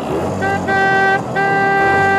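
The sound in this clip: A car engine starts and pulls away as one loud, continuous drone with a tooting tonal edge. Two brief dips break the sound before it steadies again.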